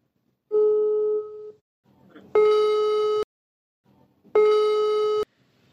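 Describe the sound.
A video call ringing: three electronic tones. The first is plainer, and the next two are brighter, buzzier repeats of each other, each about a second long and separated by short pauses.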